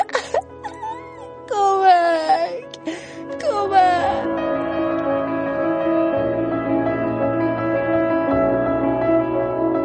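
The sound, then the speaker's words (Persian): A person bursts into tears and wails, sending out loud crying moans that slide up and down in pitch. The sobbing gives way to a sustained, steady tonal drone. “از شدت ناراحتی زد زیر گریه و گفت من دیگه نمیتونم.”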